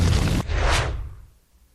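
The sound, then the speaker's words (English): A boulder rolls after the player in a video game: a loud, broad rumble cuts off sharply, then a swelling whoosh rises and fades away to quiet. “So there's a boulder that is coming after you. You cannot dodge it. You just have to run.”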